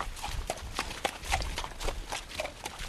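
A mare's hooves clip-clop at a walk, many even hoofbeats in a steady rhythm over a low background rumble.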